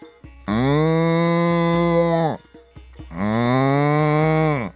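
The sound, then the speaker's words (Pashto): A cow mooing twice, each call a long, loud, low bellow lasting about two seconds, the two separated by a short pause. “خو غوا یوازې نارې کړې”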